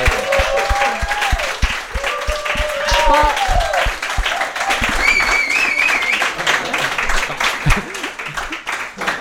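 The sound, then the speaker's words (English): An audience at a live event breaks into loud, sustained applause, dense clapping with cheers and whoops mixed in, holding steady for the full length with voices talking over it. “Can we have a huge round of applause, guys”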